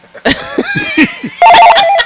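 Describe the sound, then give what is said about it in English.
A telephone rings with a steady, bright electronic ringtone through the second half, after a few short, throaty sounds. “Answer your phone, big baby.”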